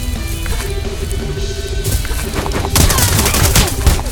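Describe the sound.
Gunfire from armed enemies in a video game, heard as dense bursts of rapid shots that grow louder and busier in the second half over a steady background tone.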